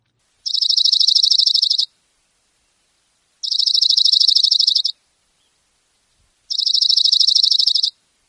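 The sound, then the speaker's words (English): An Oregon Junco, a small ground-hugging songbird with a dark head, gives three high, dry, rapid trills, each lasting over a second and evenly spaced, with nothing else around them. “It's the Oregon Junco, a ground-hugging bird, neatly feathered, with a dark head and lighter markings on the back and belly.”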